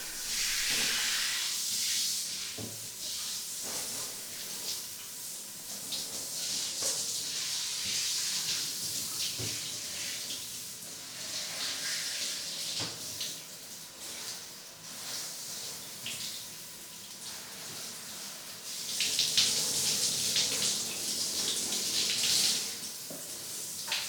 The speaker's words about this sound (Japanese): シャワーを出してと、